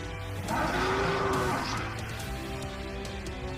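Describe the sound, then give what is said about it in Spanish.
A bull with huge horns and an enraged face bellows as the final enemy in a role-playing game: one loud, harsh, roughly one-second call with a steady tone, over a continuous low droning background that carries on after it fades. “Es un toro que tiene unas astas gigantescas, la cara rabiosa.”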